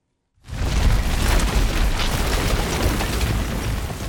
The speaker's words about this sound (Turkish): Ve Amasya'da yağışa dayanamayan istinat duvarı da saniyeler içinde yerle bir oldu sevgili izleyenler. Büyük de bir gürültüyle yıkılan duvarı mahalleli deprem oluyor zannetti.